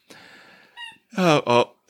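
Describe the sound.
A dog's squeaky toy squeaks in three short, high, tonal bursts after a faint hiss; the first is softer and the last two are loud and close together.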